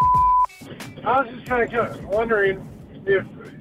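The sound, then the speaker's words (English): A voicemail tone sounds before a message is left: one steady, loud beep of about half a second. A person then starts talking. “Please record your message. This is the voicemail. Please leave a message after the tone.”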